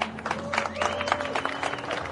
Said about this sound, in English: another round of applause for Maxime Direkš